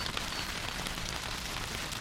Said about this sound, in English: It's hailing. It's hailing out there.